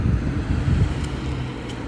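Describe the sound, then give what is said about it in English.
A white Subaru carrying a roof cargo box drives by with a steady low road rumble and whoosh, mixed with wind noise. The sound is slightly louder in the first second, then evens out. “But a white Subaru driving by.”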